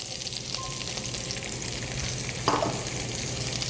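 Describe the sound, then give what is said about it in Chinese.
Onions and dried chilies stir-fried in hot salad oil give a steady, loud sizzle and crackle throughout, with a brief clatter of stirring partway through. “然后我们先爆香洋葱，然后干辣椒，”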